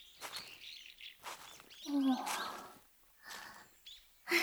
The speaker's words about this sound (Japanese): 鳥の声も素敵だし、私はこういうところ嫌いじゃないわ。